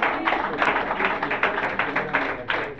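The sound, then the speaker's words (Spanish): A church audience applauds to the Lord with a dense, continuous patter of clapping that rises and dips slightly, with voices mingled in. “Aplauso al Señor. Dele gloria a Dios.”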